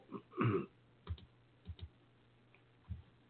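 Sparse, faint keystrokes on a computer keyboard: a few separate clicks, with one heavier cluster of taps near the start. No one speaks.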